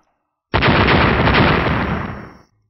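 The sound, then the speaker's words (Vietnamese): A rolling barrage of explosions that merges into one dense, loud roar starting abruptly, holding for about two seconds, then fading out. “Mấy chục tiếng nổ chấn động đất trời liên tiếp vang lên”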